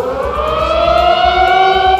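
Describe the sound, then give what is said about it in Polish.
Air-raid alarm sirens sound across Warsaw at noon to commemorate the ghetto uprising: a loud, sustained, steady wail with layered harmonic tones that holds for the whole stretch without breaking. “Punktualnie w południe w całej stolicy na minutę uruchomiono syreny alarmowe.”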